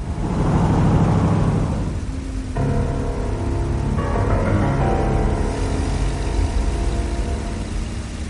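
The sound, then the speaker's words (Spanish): A car arrives at a house at dusk. A broad engine rumble and whoosh swells, then eases over the first two seconds before sustained tonal music takes over. “Al atardecer, Vincent y Esli llegan en coche hasta la casa de Lynn y ven a White entrar en ella.”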